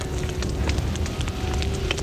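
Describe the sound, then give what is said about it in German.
A fire burning inside a library: a dense, steady roar of flames with many scattered crackles and pops throughout, without voices. “Tritt auf die Flammen. Nimm die Kutte. Schlag auf die Flammen. Wasser! Wasser, wir brauchen Wasser!”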